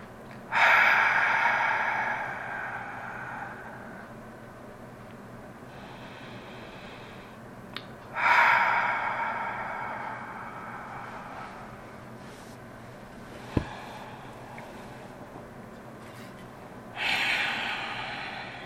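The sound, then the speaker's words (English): Long, slow, deep breaths taken to settle in before group prayer: three loud, airy rushes, each lasting a few seconds, separated by long quiet gaps, with a faint click between the second and third. “We're going to begin by taking some long, slow, deep breaths in order to center ourselves.”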